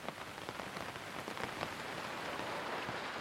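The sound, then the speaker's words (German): Soft rain falls outdoors, distant and faint, as a steady hiss of fine patter with scattered tiny drop ticks. “Der Regen bleibt draußen, leise, fern, wie ein vertrauter Begleiter, der dich nun aus der Ferne bewacht.”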